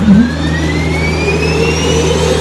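Jet engine of a two-seat Mirage 2000 fighter starting up: a loud, steady roar with a low hum underneath and thin whining tones that climb slowly in pitch throughout.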